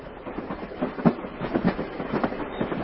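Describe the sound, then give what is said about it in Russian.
A train departing Belgrade rolls along with a steady rumble and a rhythmic clickety-clack of wheels on rails, with repeated bumps and no voices. “Дверь опять закрылась, и поезд вскоре выехал из Белграда.”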